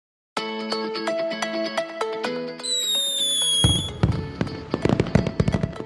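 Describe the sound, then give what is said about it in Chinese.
Fireworks launch and burst during a children's picture-book story: a soft melodic tune plays first, then a high whistle rises over it, followed by many loud, sharp crackling bursts. “你们看，放烟火了！ 哇，烟火好漂亮哦！ 对呀、啊，咻一声，烟火就飞上去了。”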